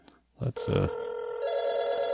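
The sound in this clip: A telephone ringing with an incoming call: a couple of brief knocks lead into a steady, bright electronic ring that holds evenly to the end.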